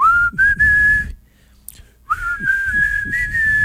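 Whistling of a song melody: a clear, high, steady tone in two sustained phrases separated by a short pause.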